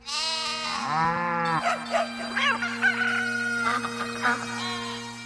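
Farm animals call out together, a goat, bull, dog, cat, rooster and goose, in a short jumble of bleating, crowing-like and other harmonic cries that overlap above a steady low drone.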